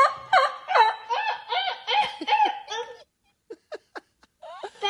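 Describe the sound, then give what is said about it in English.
A child's high voice imitates a turkey call with rapid, warbling gobble-like bursts for about three seconds. A few short clicks follow, then one more brief call. “then you hear the little voice trying to make the turkey call, which is cute”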